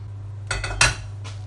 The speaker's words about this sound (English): So I'll give it a stir. Okay, so I'm just going to give it a stir. Do I add the currants now, do I? Yeah, okay. I'm just stirring it now.